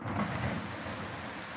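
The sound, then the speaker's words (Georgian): Steady rain sound effect, set off by pressing a key, a continuous even hiss of falling rain with no voices. “Пошёл дождь. წვიმა მოდის.”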